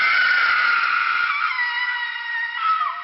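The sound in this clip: A woman screaming inside a tomb passage: a long, shrill, sustained cry that holds steady for several seconds, then drops lower in pitch and fades near the end.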